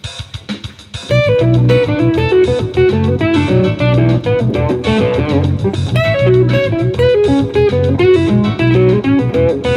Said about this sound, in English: all I'm doing now is skipping over the B string and playing just the E string and the G string.